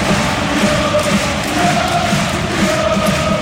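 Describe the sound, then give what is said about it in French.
A stadium crowd gives a big ovation to a defender leaving the pitch 20 minutes from the end of a football match: a continuous, dense roar of cheering and applause at steady loudness, with no distinct peaks. “une première grosse ovation lors de sa sortie du terrain à 20 minutes de la fin”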